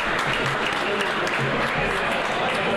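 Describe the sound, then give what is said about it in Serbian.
An audience applauds a Fantasy League champion at a trophy ceremony with loud, dense, continuous clapping, with voices faintly mixed in. “Bastianini, 23, šampion Fantasy Lige, veliki aplauz, bravo.”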